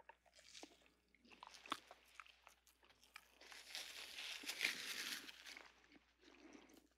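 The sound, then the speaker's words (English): Biting into and chewing a Cavendish banana, with many small moist squishes, clicks and crinkles that continue steadily and grow denser through the middle before easing off. “we started with today's banana, the Cavendish. This is the one you buy at your local supermarket, and exciting it is not. Okay, so we're going to take a bite.”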